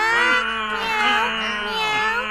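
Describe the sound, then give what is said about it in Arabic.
A white-furred cat gives a drawn-out, wavering meow of about two seconds. The cry is steady in loudness, rich and nasal in tone, and heard alone with no talk. “ماذا أسمع؟ إن القطة قار تريد بعض الطعام.”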